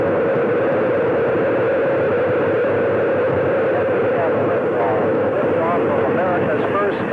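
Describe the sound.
Space shuttle launch at main engine start: a loud, dense, sustained roar that stays steady throughout, with a voice counting down over it.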